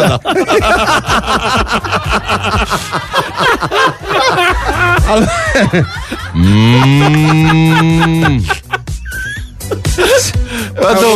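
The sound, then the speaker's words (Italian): A calf mooing, the one spoken of as wandering through a shopping centre, lets out a single long, drawn-out low moo after several seconds of lively overlapping voices, with a little chatter resuming after it. “Allora, oggi vi parlo del vitello che passeggia al centro commerciale.”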